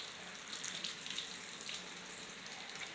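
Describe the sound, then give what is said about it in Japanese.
Water pours steadily to rinse a person's back and shoulders during washing, an even, continuous splashing hiss lasting throughout with no talk. “肩の方まで流しちゃいますね。”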